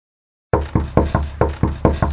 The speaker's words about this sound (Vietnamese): Vừa lúc đó, ngoài cửa truyền đến vài tiếng đập cửa.